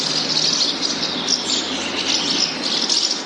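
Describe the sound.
House martin calls: a steady, busy stream of high chirps and twitters over a hissy background, with no voices.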